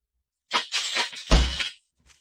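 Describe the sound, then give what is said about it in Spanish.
A trapdoor slams shut in a radio drama set in the Munsters' house, and plates break in the house across the street. A clattering, shattering crash is punctuated by a heavy low bang midway, then it stops abruptly, followed by a faint short knock. “Rayos, rayos, no debí dejar que se cerrara de golpe. Cada vez que lo hago se rompen los platos en la casa de enfrente.”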